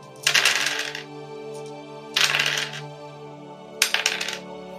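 Dice rolled on a table for a tabletop game check, heard as three separate bright rattling clatters that each quickly fade, with pauses between them, over a steady faint background tone.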